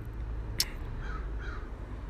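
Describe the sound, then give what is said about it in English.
A crow caws in the distance, two faint, short harsh calls rising briefly over a low, steady background rumble. “You may hear a bird. I don't know if you could hear that. There's a crow in the distance.”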